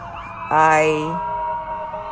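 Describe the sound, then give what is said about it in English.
An ambulance siren passes by, a loud harmonic wail that cuts in abruptly and then holds fairly steady, sounding alone over a low background rumble. “Paramedics and ambulance are driving by.”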